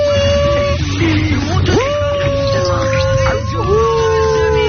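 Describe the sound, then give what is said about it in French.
A person's voice imitates the noises of a small miniature pinscher dog: long, sustained, howling whines that slide up and hold, with a low steady hum underneath and no spoken words. “Scooby-Doo, il fait des bruits comme ça. C'est quoi comme modèle de chien ? C'est un pincher nain.”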